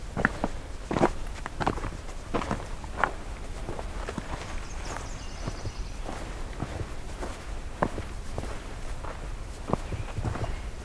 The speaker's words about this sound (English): I'll walk around the loop here.